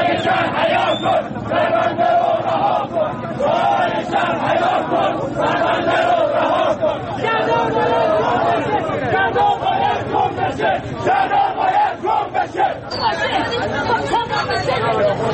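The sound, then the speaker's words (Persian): Flood victims in Khuzestan shout slogans in protest, a crowd of many voices forming a dense, continuous din that stays loud and rough throughout with no pause. “شرایطی که موجب شد برخی از سیل زدگان در استان خوزستان روز شنبه مقابل دادگستری و شهرداری بندر امام خمینی جمع شوند و با سر دادن شعارهایی علیه مسئولان به این وضعیت اعتراض کنند.”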